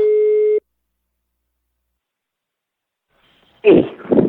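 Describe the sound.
A telephone tone plays while a call is placed: a single steady beep of about half a second, then silence, then a voice speaking.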